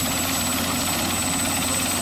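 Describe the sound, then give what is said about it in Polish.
Military helicopter during army training: a continuous, loud rotor-and-engine roar that holds steady throughout, with no voices. “W ramach szkoleń żołnierze zmechanizowanej brygady ćwiczyli wykorzystanie śmigłowca.”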